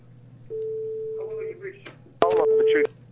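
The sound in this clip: A phone call rings through to voicemail: a long, steady electronic tone, then brief garbled voice sounds and a second, shorter tone under speech-like sound.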